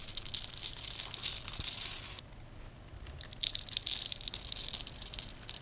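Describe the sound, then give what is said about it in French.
Crisp crackling and crumbling as a bar of soap is cut into small pieces and tiny grains fall. The dense, brittle rustle pauses briefly midway, then resumes, with no talk. “Écoutez un petit peu ce que ça donne de découper du savon en petits morceaux.”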